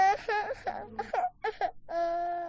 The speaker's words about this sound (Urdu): ارے بابا کیوں رو رہی ہو کوئی بات نہیں بیٹا آپ گھبرائیں نہیں